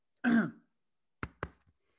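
Throat clearing: one longer, rasping clear with a voiced edge, then a short pause and two quick, sharp clearing bursts close together, fairly loud against silence.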